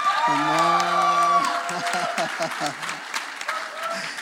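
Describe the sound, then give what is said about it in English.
An audience cheers and applauds for mothers at a Mother's Day gathering. Dense, sustained clapping is mixed with scattered whoops and crowd voices. “If you are next to the world's greatest mom, why don't you make some noise and give it up for”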